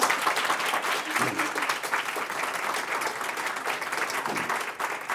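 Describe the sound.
Audience applause for the inventor of a boot design: dense, continuous clapping from a crowd, loud and steady for the whole stretch without a break.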